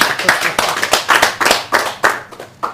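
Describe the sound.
An audience at a seminar talk gives brisk, loud applause, a lively patter of many hands clapping steadily without pause.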